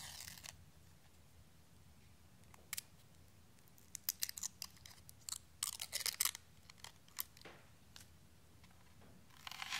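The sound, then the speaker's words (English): Dry, papery crackling and tearing as the skin is peeled from a shallot during a quiet cooking session; many short, crisp crackles cluster through the middle, soft overall, with brief louder bursts. “Now we peel our shallot onion.”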